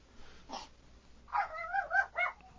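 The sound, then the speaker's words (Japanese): A pet dog gives a brief faint yelp, then a drawn-out, wavering run of whiny, high-pitched barking. The sound stays quiet throughout. “ワンコちゃん。 プレデター犬が。 プレデター犬ね。”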